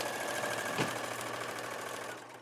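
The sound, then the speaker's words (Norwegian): A sewing machine stitching a straight seam at full speed gives a steady, rapid mechanical whir and rattle. The sound is fairly faint and stays even throughout, easing slightly at the very end. “så vil det også bli ganske rette, pene sømmer også. Kjører på full fart.”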